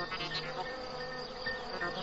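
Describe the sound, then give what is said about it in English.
Crickets chirp in a steady, dense, high-pitched trill that holds at an even level throughout, with no voices. “You can tell the temperature by how many times a cricket chirps in a minute.”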